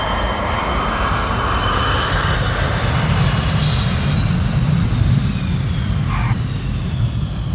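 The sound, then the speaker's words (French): A 1989 airliner landing at Paris Orly airport gives off a loud, steady engine roar with a rushing low rumble and a thin whine on top, sustained without pause and with no voices. “Le 2 mai, l'avion de Yasser Arafat atterrit à Paris.”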